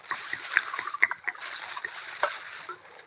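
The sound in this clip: Liquor glugs from a jug into a cup in uneven, splashy gurgles, with a few stronger pulses of liquid and softer trickles between them.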